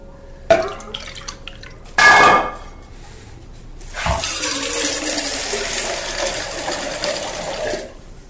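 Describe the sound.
Six litres of water poured into a cooking pot for boiling: a few sharp clattering knocks and a brief hiss, then a loud, steady rushing pour that lasts several seconds before cutting off.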